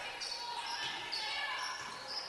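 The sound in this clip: A basketball is dribbled near the center circle during a Northern State game, with a few dull low bounces barely rising above steady crowd noise.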